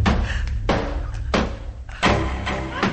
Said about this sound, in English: Laura starts using the meat cleaver on the door. Adrian watches in horror as Laura continues chopping.